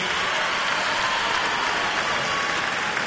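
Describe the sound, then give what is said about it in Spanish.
Applause from an audience sounds as a steady, dense hiss of clapping, almost like rain on a surface, holding an even moderate level for about three seconds. “Fuerte el aplauso, por favor”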